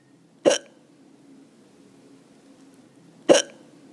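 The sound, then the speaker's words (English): A woman hiccups twice: two short, sharp bursts about three seconds apart, with near silence between them. “that was my mom having the hiccups”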